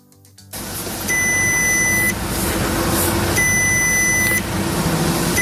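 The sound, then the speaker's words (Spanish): Car dashboard warning-light alert beeping: two long, steady, high-pitched tones, each about a second, sounding over a constant rumbling background. “Motor, batería, luces, presión de los neumáticos, el chivato, salta, no sabes, en el peor momento.”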